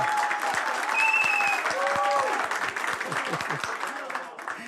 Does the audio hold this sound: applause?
yes